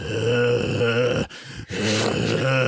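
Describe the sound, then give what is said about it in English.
A voice imitates an old man's heavy breathing as picked up by a tube condenser mic. It makes long, groaning, voiced breaths with a brief pause between them. “his breathing alone is just like you can hear it. And it just sounds like,”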